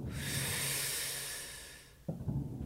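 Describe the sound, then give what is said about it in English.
A long, deep inhalation hisses steadily for about two seconds, followed by a brief snorting breath, faint and with no other sound. “Here. Breathe.”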